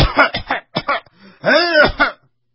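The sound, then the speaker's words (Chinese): A man coughs and clears his throat in a series of rough, voiced hacks, with a longer strained cough near the end. A storyteller's voice imitates the sound. “咳嗽，一时半会儿说不了话。”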